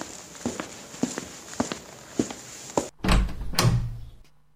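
A door is opened at night during a ghost-story scene: a run of several footsteps leads into a heavy thump and rattling as the door swings open, followed by a short quieter scrape.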